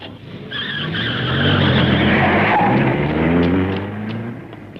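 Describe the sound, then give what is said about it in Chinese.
A car engine roars and its tires squeal as the car is driven wildly through the night. The sound is loud and sustained, swelling in the middle and then fading slightly. “野岛连头也不回离开了我们，锥心的痛苦使他像发了疯似的开着汽车在夜幕之中乱闯”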